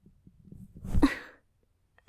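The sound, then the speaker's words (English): A person coughs after being choked, letting out one harsh, forceful cough-like burst that rises out of soft low breathing sounds, then silence. “Stop coughing.”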